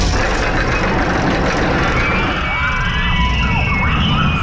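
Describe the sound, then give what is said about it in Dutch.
A roller coaster races past at an amusement park in Appelscha: a loud, continuous roar with whining tonal screeches that slide in pitch over the rumble, and no voices. “Wat een heerlijk geluid is dit. Het is het geluid van de Appelscha 8-baan.”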